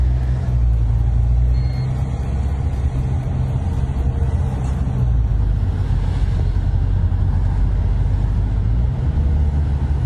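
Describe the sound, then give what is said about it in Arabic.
Cars idle in a long queue waiting for petrol, giving a steady, low engine rumble that stays even throughout with no voices. “هاي كله ببلش من هون طابور البنزين، هذا كله طابور بنزين”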